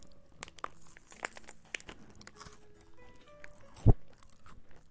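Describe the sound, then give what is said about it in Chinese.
Crunchy shaqima pastry being bitten and chewed, giving a series of dry, crisp crackles of varying loudness, with one sharp, louder crunch near the end. “吃这个沙琪玛的时候呀，我就想起了我小时候，”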